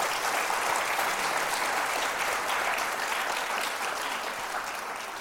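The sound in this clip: Live audience applause at the National Constitution Center thanking two guests: a continuous, even wash of many hands clapping that holds steady for several seconds and eases slightly toward the end.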